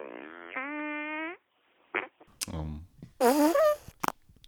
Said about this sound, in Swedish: Och just att jag tror att vi alla har hört den typen av fis. Den gav något annat än det här blöta och vanliga ljudet.